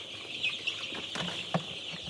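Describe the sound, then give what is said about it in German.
Chicks and chickens on a poultry farm make a steady, high-pitched chorus of peeping, with a few short, sharper calls and clucks rising above it. “Auf dem Geflügelhof gibt es jetzt jede Menge Küken zu versorgen.”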